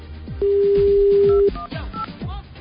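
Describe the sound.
Telephone tone while a number is dialed to call a sex shop: a single steady, mid-pitched beep lasting about a second, set among fainter broken sounds before and after.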